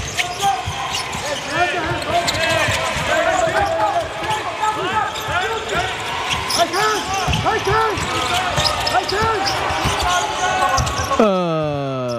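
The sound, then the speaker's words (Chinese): A basketball is dribbled during a game with repeated rubbery bounces, heard within a constant roar of crowd noise and a talking voice. “运球的时间还是很长的，没有有效的配合”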